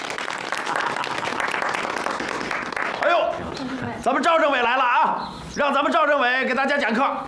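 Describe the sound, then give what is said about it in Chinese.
Audience applause at a gathering welcoming a political commissar to give a lecture: dense, loud clapping for about three seconds, after which people talk over quieter background. “咱们赵政委来了啊，让咱们赵政委给大家讲课，鼓掌。”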